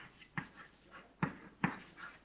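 Scratchy strokes of writing out an equation during a math lecture, soft and continuous, with a few sharper taps and many fainter strokes between them, quiet and with no talk.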